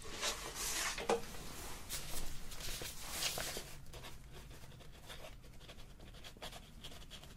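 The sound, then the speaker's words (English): A pen scratches softly across the front of a paper form during a medical intake, with faint, irregular strokes and light rustling. “I'm just going to write this down on the front of the form.”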